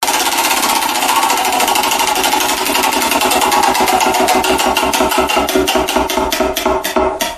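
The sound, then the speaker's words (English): Rapid mechanical clicking from a spinning prize wheel: many loud ticks in a fast, even run that spread out and slow toward the end. No voices. “Let's spin the wheel of destiny to find out what we're going to talk about now.”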